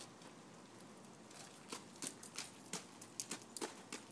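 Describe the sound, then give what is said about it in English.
Footsteps crunch on frozen, icy ground in miserably cold weather. After a quiet hiss, many soft, crisp steps come faintly and irregularly, closer together toward the end, with no talk. “That's the frozen ground she's walking on.”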